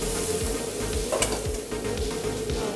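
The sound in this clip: Chop suey with sauce sizzles steadily while it is stir-fried in a pan, with a continuous hiss and a few scraping stirring strokes throughout.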